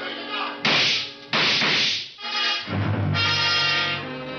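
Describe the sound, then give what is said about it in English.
Gunshots in an audio drama, fired at close range with pellets: a few sharp, loud bursts cut across sustained musical tones that continue beneath and between them. “I saw the gun flash as it fired, and Theophilus slumped to the pavement.”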